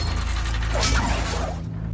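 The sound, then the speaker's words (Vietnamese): Metal scrapes and grinds against metal as a fallen bronze giant begins to stir, a steady, continuous metallic friction with a ratcheting texture, fading slightly at the end. “Hoàng Hải Lâm vừa dứt lời, phía sau đã truyền tới tiếng âm thanh kim loại ma sát.”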